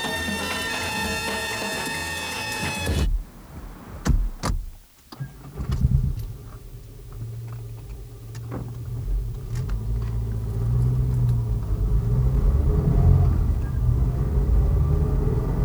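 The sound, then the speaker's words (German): A car engine rumbles low and steady as the car drives off. Before it, a few clicks and thumps follow an opening stretch of sustained tonal sound, and the engine noise grows slightly louder over time. “Aber steigen Sie ein, das Auto wartet.”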